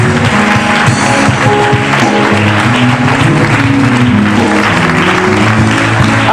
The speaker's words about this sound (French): Et enfin, acclame Dieu pour ton pays, la Côte d'Ivoire.